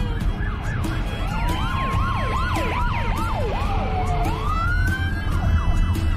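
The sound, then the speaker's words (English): Police cruiser sirens passing on a road, several overlapping wails that sweep rapidly up and down, joined by a longer, steadier rising tone, loud over a low traffic rumble. “Trudy stares in the rear view at the passing police cruisers.”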